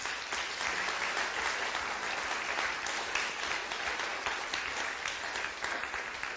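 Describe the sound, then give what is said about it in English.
Audience applause welcoming a guest speaker at a talk, an even, sustained clatter of many hands that carries on for over six seconds at a modest level. “would you, ladies and gentlemen, put your hands together and welcome Mr. Andrew Bryce.”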